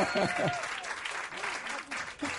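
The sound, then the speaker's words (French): Audience applause greets the first guest, Tété, on a French show. Moderate, steady clapping swells and fades, with a voice speaking over it. “Tous les voilà, notre premier invité Tété, applaudissements.”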